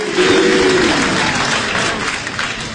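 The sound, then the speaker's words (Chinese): Audience applause at a crosstalk comedy stage performance: dense, steady clapping that stays loud throughout and eases slightly toward the end. “谢谢朋友们， 谢谢大家伙的掌声鼓励。”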